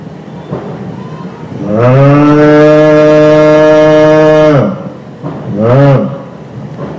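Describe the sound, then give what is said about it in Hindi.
A human voice imitates a cow mooing in distress: one long, loud, low, drawn-out moo, a short pause, then a second, shorter moo. “The cow is mooing in distress.”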